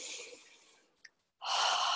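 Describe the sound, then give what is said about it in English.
A cleansing breath exhaled through the mouth during a relaxation practice: a soft, airy breath fades away, then after a short silence a loud, steady rushing exhale fills the rest. No one speaks. “Exhaling through the mouth is the cleansing breath.”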